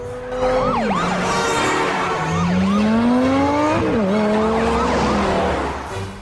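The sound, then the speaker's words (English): A handheld flashing siren wails loudly and continuously for about six seconds. Its tones sweep up and down in repeated curved glides. “holds up a flashing siren next at the courthouse”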